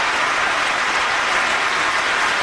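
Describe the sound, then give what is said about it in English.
An audience claps steadily, a dense and unbroken wash of hands at an even loudness throughout, with no voices on top. “And there they are, clapping like a bunch of morons.”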